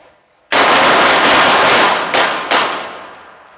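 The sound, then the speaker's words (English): Pistol gunshots on a police training range during a state-mandated shooting test with support-hand fire: a few loud, sharp bangs burst over a sustained wash of noise that slowly fades. “When the target turns, you'll transition to your support hand. Fire two rounds, center mass, 3 seconds.”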